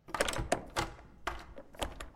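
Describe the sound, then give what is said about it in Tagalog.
Someone trying to open a door in a dark corridor produces a few quiet, dull thunks and knocks at irregular intervals, with short pauses between them. “Sinusubukan niyang buksan ang isang pinto.”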